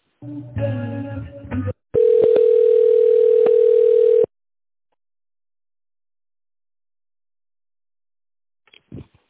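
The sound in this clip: A steady, unbroken telephone tone plays for about two seconds while a call is transferred to another line. A short burst of other sound comes before it, and silence follows, broken only by a faint blip at the end.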